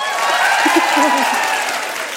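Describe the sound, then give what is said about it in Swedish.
Audience applause at a comedy show on tour, a steady wash of clapping lasting about two seconds, with a voice heard over it and the clapping tapering slightly at the end. “Applådera nu.”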